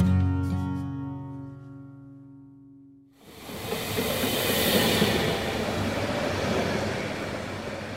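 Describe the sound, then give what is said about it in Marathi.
A train pulls into a railway station in Mumbai: a loud, steady rumble and rattle of rolling wagons that begins abruptly partway through and holds to the end. “गाडी आली”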